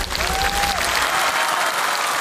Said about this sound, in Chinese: 掌声送给吴大哥。